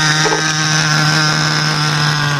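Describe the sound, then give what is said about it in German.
A remote-controlled model helicopter's engine runs on a meadow, holding a steady, loud droning whine with a buzzing low tone and no pauses. “Und dann lässt er den Motor an.”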